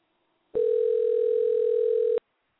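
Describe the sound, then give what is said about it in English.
A telephone dial tone while dialing in to a call: one steady, continuous mid-pitched tone lasting about one and a half seconds that starts and stops abruptly, with silence on either side. “We're going to dial in one more time.”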